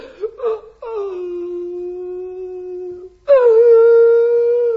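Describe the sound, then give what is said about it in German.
Acted crying by a voice in a workshop scene: two short whimpering catches, then a long, steady wailing note, which breaks into a louder, higher wail that lasts to the end. “Das ist doch kein Grund zum Weinen.”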